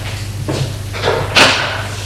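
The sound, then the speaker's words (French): A small cabinet door in a bedroom being opened, heard as a few soft wooden knocks and rubs followed by one louder, sharper bump near the end. “qui a ouvert la porte du petit meuble et le sort. On le sort du meuble.”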